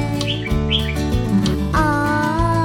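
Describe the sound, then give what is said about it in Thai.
An oriental magpie-robin sings a few short, bright chirps near the start, laid over a steady, tonal musical backing. “นั่นเจ้านกกังเขนอ”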